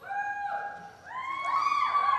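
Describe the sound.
A lone voice whoops and cheers for an audience member asking a question at a faith talk. The long, bright, sustained call steps up in pitch midway and holds high to the end.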